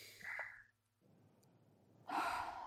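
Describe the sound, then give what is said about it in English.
Deep breathing during a guided tapping exercise: a short, sharp inhale, a near-silent pause, then a longer and louder breath. Soft and airy, with no talk. “Big deep breath again.”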